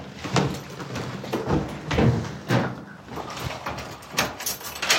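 A door is shut and locked, with a few clunks, rattles and scraping knocks of uneven loudness spread over several seconds. No voices are heard.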